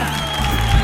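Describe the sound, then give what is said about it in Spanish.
A crowd of people from Cañada Rosal cheers and applauds in a short, dense burst of clapping and shouting. The sound is loud and steady, lasting about a second. “Hoy ha venido una gente maravillosa de Cañada Rosal y suena así de potente.”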